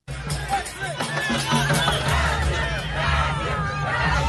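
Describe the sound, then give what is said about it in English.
Brazilian football fans crowd in Times Square, New York, before a World Cup match: a dense, continuous roar of many voices shouting and cheering together, loud and unbroken throughout. “That's the sound of Brazilian football fans there warming up in Times Square for tonight's World Cup match.”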